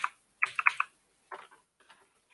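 Typing on a computer keyboard gives a few faint, irregular clusters of light clicking taps separated by brief silences, with no voices.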